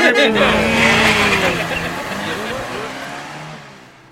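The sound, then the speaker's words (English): A car revs its engine and drives away, the wavering engine note rising and falling loudly before gradually fading out over a few seconds. “I think I'll drive away.”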